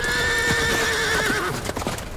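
Horses riding away: a loud, sustained whinny over steady clip-clop hoofbeats, with the hoof strikes continuing as the call ends.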